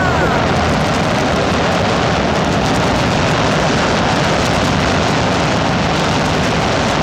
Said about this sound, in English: we're going straight to the Sonic Boom. Yeah, I want please. The Sonic Boom.